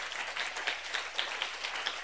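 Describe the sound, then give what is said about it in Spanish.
Applause from a church audience during a worship service: a steady, fairly faint patter of many hands clapping that continues through the whole moment. “Aplauso contento para Cristo.”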